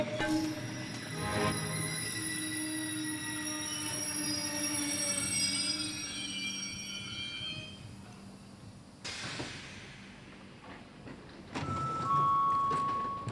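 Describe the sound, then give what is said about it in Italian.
Train station ambience at Gianturco station in Naples: train wheels squeal in long, high metallic tones over a steady rumble and hiss, shifting to a louder squeal late in the stretch. “Oggi venerdì 24 gennaio siamo alla stazione di Gianturco”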